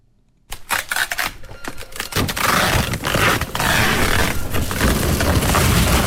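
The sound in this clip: A printer prints shipping labels in an e-commerce workshop: after a brief silence, a dense, continuous run of rapid mechanical clicks and rasping paper-feed noise.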